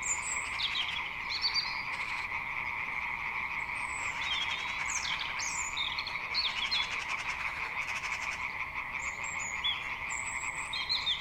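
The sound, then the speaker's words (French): Frogs croaking in a dense, continuous chorus at a wetland of former fish ponds on a spring afternoon, with scattered high bird chirps above the steady croaking. “Un chouette chemin de balade y a été aménagé et, printemps oblige, les grenouilles s'en donnaient à cœur joie et en plein après-midi.”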